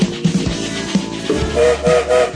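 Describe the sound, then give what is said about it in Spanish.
A train sets off with chugging, rhythmic chuffs, then its whistle sounds in a few short, steady, high tonal blasts over the continuing rumble. “sonó el silbato y el tren se pone en marcha”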